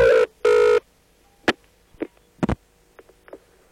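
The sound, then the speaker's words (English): A faulty telephone answering machine heard down the line: two loud electronic beeps followed by a scattering of sharp, irregular clicks and pops over a faint hum. “There now follows a recording of the hideous noise that one hears when telephoning your number. Please have it repaired. There is something radically the matter with your answering machine.”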